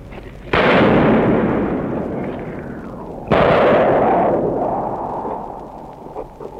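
Two loud gunshots ring out, sniper fire from a window amid the rubble of a city during its liberation. Each is a sharp, sudden crack followed by a long rumbling decay that fades over about three seconds.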